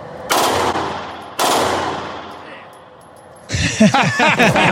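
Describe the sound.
Two loud, sustained bursts of automatic fire come from a SAW machine gun aimed at a target, each lasting about a second. A voice follows after a short lull.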